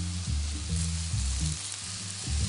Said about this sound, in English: Add a little bit more of our oil into this pan.